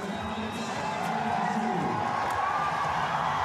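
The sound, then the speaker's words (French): Crowd cheering at an evening pole vault event in Doha: a loud, sustained roar of many voices that holds steady throughout. “Et le public qui se régale. Et Karolis est en train de faire le show ce soir ici à Doha.”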